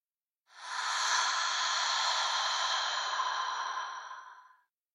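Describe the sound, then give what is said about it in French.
A long, slow breath taken during a voice-yoga breathing exercise, a steady airy hiss that swells in quickly, holds for about four seconds and then fades away, heard alone. “Prenez une dernière profonde inspiration, puis une profonde expiration.”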